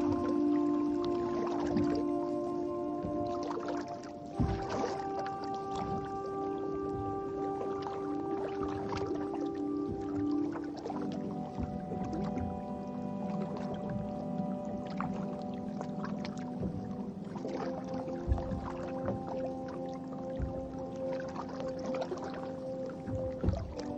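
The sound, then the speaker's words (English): A canoe is paddled across water, with many soft swishes and splashes from the strokes. A steady tonal hum runs underneath throughout. “I'm going to take a break, and I'm going to paddle a canoe.”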